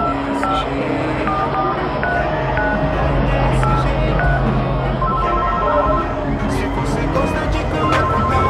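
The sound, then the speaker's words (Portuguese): Telephone keypad tones as someone dials a call, many short beeps in a quick, uneven sequence over a loud, steady background hum. “Vou ligar pra eles pra ver de qual é.”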